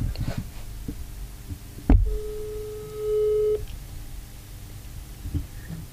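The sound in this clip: A single long ringback tone sounds on an outgoing phone call to a friend, steady and mid-pitched, following a brief thump and set against low background rumble.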